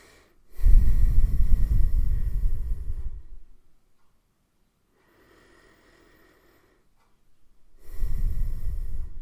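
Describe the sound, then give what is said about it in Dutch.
Deep breathing in and out during a guided relaxation exercise: one long, breathy, rushing breath lasts about three seconds, then silence, then a second deep breath begins and is cut off at the end. “Dan wil ik je eerst vragen of je een keer, of je twee keer goed diep in en uit wil ademen.”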